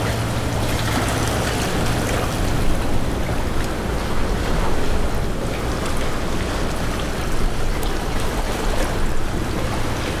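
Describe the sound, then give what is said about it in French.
Sea water surges into a rock crevice cutting into a cliff, making a continuous, broad, churning roar of surf. The loudness swells gently throughout, and no voices are heard. “L'eau s'y engouffre. Paysage sonore, étonnant.”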